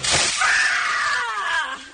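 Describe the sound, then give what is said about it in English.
A recorded blast of screaming: a loud, shrill, high-pitched shriek opens with a harsh noisy burst and holds for nearly two seconds, sagging slightly in pitch toward the end. “That's just a blast of scream.”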